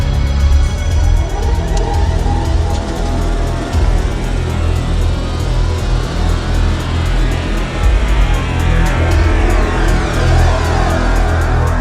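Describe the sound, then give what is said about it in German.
A car accelerates with a loud, continuous engine roar that stays steady and dense from start to finish, with no voices over it. “dann gib mal Gas”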